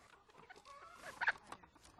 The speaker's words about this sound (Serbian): Evo imam jednu ovakvu šarenu kuku. Ona mi nosi bela jaja